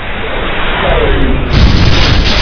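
A deep, booming explosion from a direct hit on a spaceship, a loud, sustained low rumble that swells heavier about halfway through and keeps roaring to the end.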